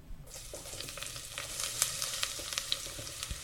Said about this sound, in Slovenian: Zdaj sem vzel lonec, širok lonec, v loncu se grel sončnično olje in v tem olju bom sedaj opražil čebulo